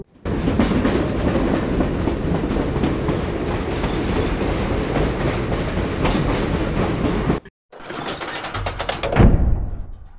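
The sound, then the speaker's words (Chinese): Metro train on the Taipei MRT Songshan–Xindian line near Songjiang Nanjing station, a steady loud rumble and rhythmic wheel clatter for about seven seconds, a brief break, then the noise returns and fades away. “上了列车之后呢，他戴上耳机啊，就听音乐，看着窗外。几分钟之后呢，列车的速度就缓慢了下来。”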